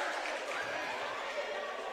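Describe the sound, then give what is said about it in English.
A basketball bounces during a crossover dribble in a game, with a few dull low thuds under steady crowd noise. “Crossover dribble, Sam Wiley works his way through contact.”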